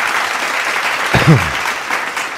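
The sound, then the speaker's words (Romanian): An applause sound effect gives a steady, dense roar of clapping from start to finish, with a short voice rising briefly over it near the middle. “În 1956 îl aplaudăm pe Florin Călinescu.”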